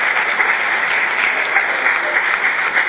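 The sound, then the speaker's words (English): An audience applauds at the QuakeCon 2002 prize ceremony, honoring the team that placed third: dense, loud, steady clapping continues without a break from start to finish. “Let's have you step on down to the side, and another round of applause for CK here tonight.”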